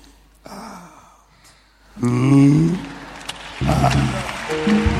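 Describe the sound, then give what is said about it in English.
A person takes a deep breath in while giving a testimony at a church gathering, producing loud, rough, breathy sounds with a throaty edge that swell after a quieter opening. “Breathe, let me see. Breathe in.”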